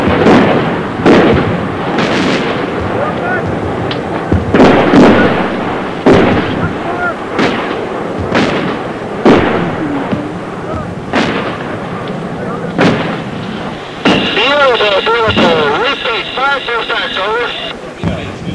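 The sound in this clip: Artillery shells landing and exploding near soldiers' fighting holes in combat: many heavy, loud booms follow one another in irregular succession over a continuous rumbling roar.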